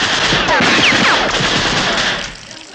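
Sustained machine-gun fire, shot on a colonel's order at a room thought to hold a radio, a loud continuous rattling burst that drops away near the end.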